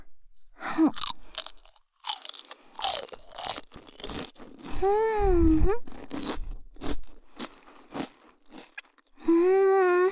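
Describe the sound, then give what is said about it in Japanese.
Crunchy biting and chewing of a thin, flat piece of food, with crisp crunches in irregular bursts. Short voiced, hummed vocal sounds rise between the bites. “一緒に食べると美味しいね。”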